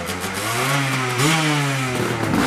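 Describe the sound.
An old kick-start motorcycle engine revs at an off-road riding event. It makes a loud, steady mechanical drone whose pitch jumps up sharply midway and then holds. No voices are heard.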